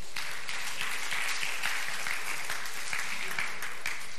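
A church audience gives a big round of applause to a volunteer called up front, with dense, steady clapping that stays loud and continuous throughout.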